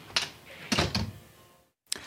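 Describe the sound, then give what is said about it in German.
A door shuts behind someone leaving. A few soft, shuffling clunks give way to a moment of near silence and one final short thud, all faint and without voices. “zieht ihre Jacke an, nimmt die Mappe und schließt hinter sich die Tür.”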